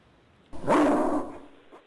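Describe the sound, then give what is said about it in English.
A detection dog at an investigation scene gives a single drawn-out bark or yelp, a loud, mid-pitched sound lasting under a second that fades off with a softer tail. “All right, the dog signaled.”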